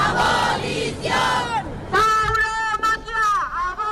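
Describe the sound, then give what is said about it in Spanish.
A crowd of a few dozen anti-bullfighting activists chants in front of the bullring on Plaza del Pilar in Zaragoza. The shouted slogans are loud and rhythmic, repeated in unison, with some voices yelling above the rest. “en Zaragoza, unas decenas de activistas se manifiestan frente a la Plaza de Toros, en la Plaza del Pilar, en protesta porque se destine dinero público para las corridas de toros.”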